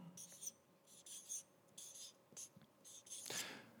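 Writing on a board during a church sermon: a run of short, faint, scratchy strokes in irregular bursts over a quiet background hum.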